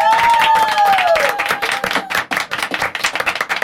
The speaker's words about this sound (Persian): بزن دستو به افتخار استودیو.